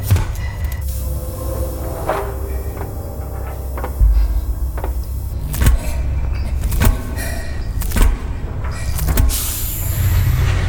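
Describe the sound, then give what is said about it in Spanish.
The airlock of a terraforming bay opening: mechanical whirring runs throughout, broken by a series of sharp clanks and thuds at uneven intervals. “Ok, Walter, listos. Abre la bahía de terraformación. Abriendo la esclusa ahora.”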